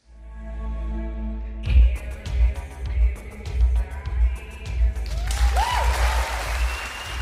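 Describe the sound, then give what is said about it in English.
Applause from an audience at a fashion show in Johannesburg, where models walk the catwalk. Dense clapping starts abruptly after a quieter tonal opening and keeps going, swelling and dipping throughout. “The audience reacts at a recent fashion show in Johannesburg as models wearing Punk and Ivy's latest daring creations slink down the catwalk.”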